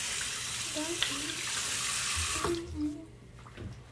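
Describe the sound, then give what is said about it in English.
Tap water runs into a sink to rinse toothpaste away, a steady rushing hiss that holds for a couple of seconds, then thins and turns more uneven, with light splashes toward the end. “I'm gonna wash out all the toothpaste out of the sink.”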